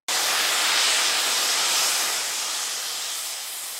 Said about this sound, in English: Yes, the steamer is a dud by itself, but I add a bowl and a piece of cloth to the mix, and...